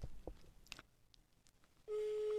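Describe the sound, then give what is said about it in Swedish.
FaceTime video call ringing tone: a steady electronic tone that starts suddenly in the last half second, after a stretch of faint rustling and a few soft clicks. “Okej, vi ringer då. Hoppas han svarar.”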